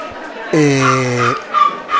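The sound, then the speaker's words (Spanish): A small dog whines in one drawn-out, nasal whimper that holds a fairly steady pitch for nearly a second, framed by softer room sounds and murmuring voices. “Tenemos ahí un perrito que se está quejando, no sé por qué.”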